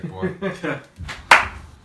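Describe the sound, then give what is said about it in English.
A single loud, crisp hand clap used to sync an audio recording, ringing out sharply after a short stretch of talk. “Clap sync.”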